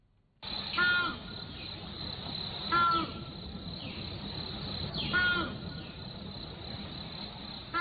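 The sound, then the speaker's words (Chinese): A crested ibis calls in the woods with three loud, harsh, crow-like croaks spaced a couple of seconds apart, and a soft background hiss fills the gaps between them. “大家现在听到的这段声音，就是国家一级重点保护野生动物朱鹮在林间的叫声。这个叫声啊，跟黄鹂等很多鸟类相比，好像不是那么的动听啊。”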